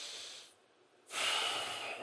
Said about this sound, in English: I just invite us to take a couple of breaths together. All right, just take a couple of breaths. Just breathe in.